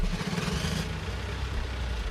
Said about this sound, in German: Draußen fahren schwere LKW vor, beladen mit Containern, die sie vom nahegelegenen Containerterminal des Hafens abgeholt haben.